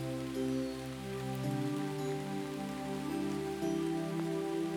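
Rain falls in a continuous soft hiss that stays even throughout, with low sustained tones humming faintly beneath it.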